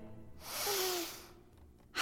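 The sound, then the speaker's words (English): A person voices a wolf's big sniff in a children's story, imitating it with one long, noisy nasal inhale that carries a faint whistle, followed by the start of another breath. “wolves woke up, and they stretched a big stretch, and they sniffed a big sniff,”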